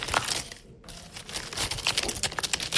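Cards from a tactile board game with cut-out symbols are handled, giving a busy run of dry clicks, taps and rubbing scrapes with a brief pause early on, then many quick, irregular crinkly strikes continuing to the end.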